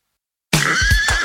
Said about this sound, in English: If you want to buy a horse at auction, you better do your homework, because what you see in the sale pen may fool you.